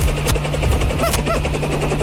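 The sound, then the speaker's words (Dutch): Loud, steady rotor roar of a large helicopter landing in a parking lot: a broad whooshing wash with rapid thudding blade pulses and a constant low hum running throughout. “Er landt hier een enorme helikopter.”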